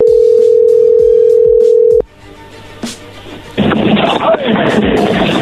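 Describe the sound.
A telephone dial tone hums steadily for about two seconds while a number is redialed, then cuts off with a click. A few faint clicks follow, then a loud stretch of hissing noise.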